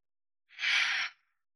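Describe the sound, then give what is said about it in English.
A single deep breath, heard as a soft, airy exhale like a sigh lasting about half a second, alone in silence. “Let's take a breath now. Okay. Just a nice deep breath.”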